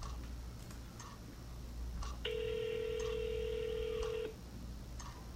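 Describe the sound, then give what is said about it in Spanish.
A steady telephone tone of about two seconds sounds while an office extension at an agency is being called, with a few faint clicks before and after it. “Entonces ahora estoy llamando a otra extensión de otro oficial de información de la misma agencia.”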